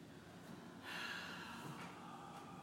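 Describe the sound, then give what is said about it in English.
Breath exhaled through the mouth during a vinyasa yoga class, a faint, airy rush that swells partway through and then eases off into a quieter breathy hiss. “Inhale through the nose. Exhale through the mouth.”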